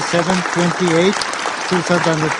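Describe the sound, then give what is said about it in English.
Applause in the chamber after a UN Security Council resolution is adopted: a broad, steady clapping wash running under a person speaking, with the voice prominent over the clapping. “they're all clapping for Israel to stop, to cease fire.”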